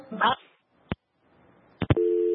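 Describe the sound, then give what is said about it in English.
A phone call drops on the line: a brief voice fragment, then a few sharp clicks, and finally a steady electronic line tone that holds to the end. “I think the caller dropped, but let's carry on.”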